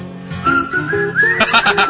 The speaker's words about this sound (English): I don't think that's him whistling. That's not. That's a stunt whistler.